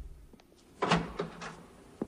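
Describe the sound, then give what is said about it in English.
A door opening and closing as a man lets himself out: a few soft clicks, then a louder thump followed by two fainter knocks, and a final short click. “With his head bowed, Frank slowly walks to the door and lets himself out.”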